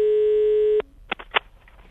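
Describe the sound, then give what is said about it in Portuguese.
Telephone line tone while placing a prank call: a steady single-pitched tone holds for under a second and cuts off sharply, then two short bursts of sound follow on the line. “Vamos ligar? Liga aí, meu filho. Vamos botar para arregaçar agora. Vai, liga.”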